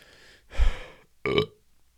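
Two loud burps in quick succession: the first deeper and longer, the second short and sharper, with quiet breathing between them.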